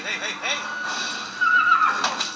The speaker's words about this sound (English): People need to leave these horses alone, man.